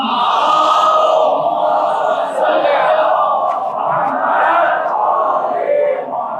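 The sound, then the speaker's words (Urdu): A large crowd chants durood, the blessing on the Prophet Muhammad, in unison, a loud, sustained wall of massed voices that swells and dips slightly in waves without pause. “ایک اور درود پڑھ دیجیے, محمد”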